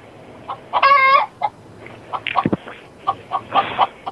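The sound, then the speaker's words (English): A chicken inside a room gives a loud, drawn-out squawk, then a run of short, sharp clucks in an uneven rhythm. “There's a chicken inside here. What? There's a chicken inside our room.”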